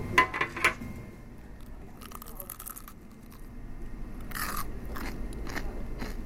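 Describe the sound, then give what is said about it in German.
Crunchy bites into crispy chicken nuggets at a motorway rest-stop eatery: a quick cluster of sharp crunches, then quieter chewing broken by further crisp crunches, faint and alone. “Dann probiere ich mal die Chicken Nuggets.”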